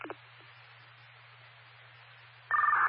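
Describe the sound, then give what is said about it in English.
Telephone tones as a number is dialed: a few short electronic beeps, the last one the loudest, over a faint steady low hum. “Do you want me to call or do you want to? You can go ahead with it. I'll give them a call.”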